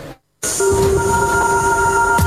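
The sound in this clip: Metro train running: after a brief silent gap, a steady, loud rumble sets in with sustained whining tones and hiss, holding evenly to the end.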